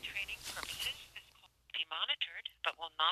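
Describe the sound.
Telephone keypad tones as someone dials a White House phone number, short electronic beeps mixed in with people talking throughout.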